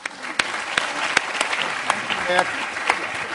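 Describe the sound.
Audience applause welcomes a speaker at an LSE event, a steady wash of clapping with a few sharper claps standing out, and a voice briefly heard over it.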